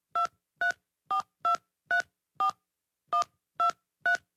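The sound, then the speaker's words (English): Nine short touch-tone beeps as a number is dialed on a cell phone keypad, each a clean, evenly spaced electronic dual tone, with a slightly longer pause after the sixth and no talk. “And don't forget to dial the area code.”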